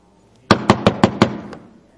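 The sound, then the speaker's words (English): Knocking by hand on a hard surface: five sharp raps in quick, even succession, followed by a fainter sixth, loud against silence. “They don't even knock. I just did that.”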